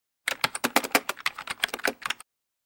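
Rapid typing on a computer keyboard, a brisk two-second burst of crisp keystrokes in an uneven rhythm, heard alone.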